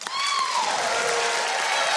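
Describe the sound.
A show audience applauds to welcome a magician. The clapping swells quickly into loud, steady applause, with a high whoop in the first second.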